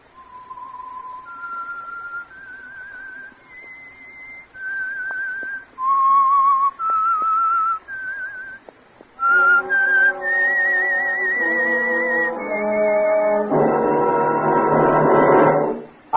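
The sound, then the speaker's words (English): A whistled signature tune for a radio program: clear, held whistled notes stepping up and down in a slow melody. In the second half, richer sustained tones join the whistling and swell to a fuller, louder close. “And for Sunday evening listening pleasure, the signal to listen for is this whistle that identifies the Signal Oil Program, The Whistler.”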